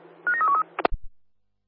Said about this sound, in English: Dialing now.